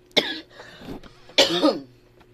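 Someone coughs and chokes in two harsh bursts separated by a brief, rough gap, with a throat-clearing rasp in each burst.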